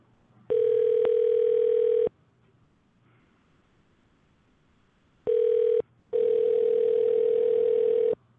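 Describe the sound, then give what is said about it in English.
Telephone tones while a number is dialed: a steady, single-pitched tone sounds in three bursts, long, then short, then long again, separated by near-silent gaps. “So let's try this. Let's dial this number right here.”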